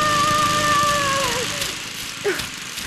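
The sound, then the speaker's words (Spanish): A lawn mower running loud and out of control in a cartoon scene, a dense motor roar with a whining tone that slides down in pitch partway through, followed by a brief rough sputter. “¡Así no se corta el césped! ¡Ay! ¡Ay! ¡Se ha dado vuelta! ¡Viene hacia mí! ¡Estaba bromeando, señora máquina!”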